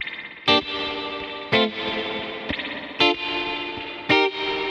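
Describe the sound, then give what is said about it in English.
Five short electric guitar chords, played with the guitar's volume turned down through a Kemper Profiler set to a high-mix spring reverb. Each brief strike rings into a sustained, shimmering wash of effects before the next chord lands. “this little song, I'm playing just chords, just short chords. And the volume is turned down on the guitar.”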